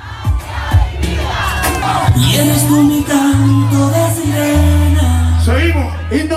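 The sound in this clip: Street protesters chanting and singing a protest song together: a loud mass of voices in unison with rising and falling shouted phrases, held tones and a dense, sustained crowd roar.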